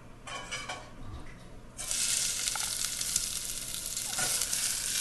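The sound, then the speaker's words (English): Onion sautéing to golden in olive oil over open flames for a Yucatán tomato sauce; a quiet sizzle swells abruptly into loud, dense crackling frying that holds steady through the rest. “It's a sauce from the Yucatan, and it's nothing but roasted tomatoes, a little olive oil, a little onion that you saute to golden.”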